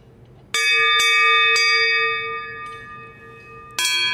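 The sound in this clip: A church bell rings with a bright, high-pitched tone, struck four times, each stroke leaving a long sustained ring that fades slowly between strikes.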